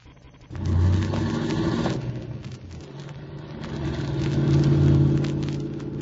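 A car engine starts and drives off, a rumbling motor that surges loudly near the start, settles into a steady drone, then swells again as it pulls away.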